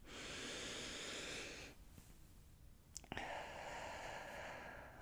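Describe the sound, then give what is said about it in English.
A slow, deep, conscious breath: a long, soft, airy hiss of inhaling, a short pause, then a similar steady rush of air on the exhale. “let's stop and take a nice deep conscious breath.”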